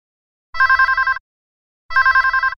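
A telephone rings twice, each ring a short, rapid electronic trill lasting under a second, separated by a pause of similar length.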